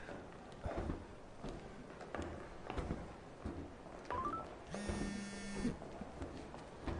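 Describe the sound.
Telephone dialing tones come through faintly as a quick run of short, rising key beeps, followed by a buzzing tone lasting about a second, among scattered soft knocks and handling noises.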